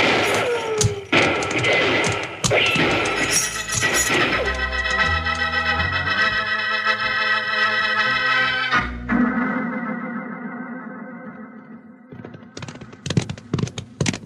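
Gunfire in a Western radio drama: a burst of sharp cracks opens the scene, dramatic music swells through the middle, and a few more rapid shots snap out near the end.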